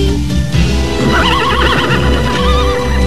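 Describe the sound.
A horse neighs in one long, quavering whinny that starts about a third of the way in and runs to the end, wavering up and down in pitch over a steady, dense background.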